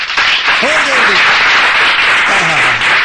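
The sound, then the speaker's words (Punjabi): Loud applause from an audience opening a programme, a dense steady wash of clapping that holds for about three seconds, with voices calling out over it. “ਇਸ ਕਰਕੇ ਇੱਕ ਵਾਰੀ ਜ਼ੋਰਦਾਰ ਤਾੜੀਆਂ programme ਦੀ ਸ਼ੁਰੂਆਤ ਕਰਨ ਵਾਸਤੇ।”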